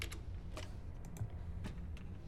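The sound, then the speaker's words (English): Faint keystrokes on a computer keyboard, a few scattered taps and clicks over a low, steady background hum. “She perks up and types another username.”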